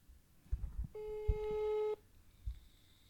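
Ringback tone of a telephone on an outgoing call: one steady, clean electronic tone lasts about a second, followed by quiet line noise and a few soft clicks and thumps.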